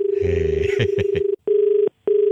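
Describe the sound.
An electronic telephone ring tone sounds as a steady, mid-pitched beep in repeated bursts separated by short silences, loud and clear.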